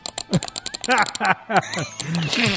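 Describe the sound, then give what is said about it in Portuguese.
Frantic, rapid mouse clicking from someone playing League of Legends, a dense stream of sharp clicks running under voices. “Você tá clicando e virou um louco. Qualquer jogador de Diablo é isso que ele escuta.”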